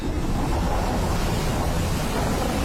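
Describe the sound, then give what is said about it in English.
Steady winter ambience of the Wicklow Mountains: an unbroken, loud, wind-like rushing noise that holds at an even level throughout, with no voices. “Relax and unwind to the sound of the Wicklow Mountains in winter.”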